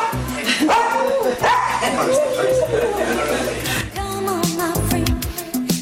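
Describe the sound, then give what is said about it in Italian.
A dog barks and yips in a dense, loud stretch, several sharp onsets separated by high, whining harmonic tones, sounding continuously through the whole clip. “ti faccio sentire la voce del cane, stai ben attenta”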